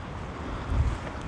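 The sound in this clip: Wind blowing outdoors, a soft, low rumbling hiss with a brief gust swelling near the end, faint and without voices.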